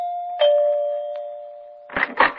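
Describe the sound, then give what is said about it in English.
Doorbell ringing with a single sustained chime tone that decays slowly, followed by a brief double burst of brighter, rougher sound near the end. “I was so tired, I had to back up and take a running start to press the doorbell.”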